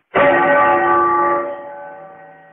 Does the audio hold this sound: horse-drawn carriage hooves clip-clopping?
no

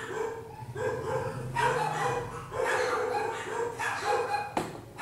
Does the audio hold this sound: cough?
no

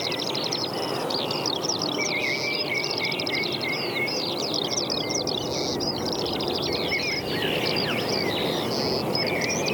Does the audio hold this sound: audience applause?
no

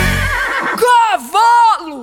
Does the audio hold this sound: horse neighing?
yes

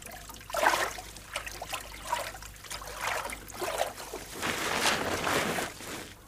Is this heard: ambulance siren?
no

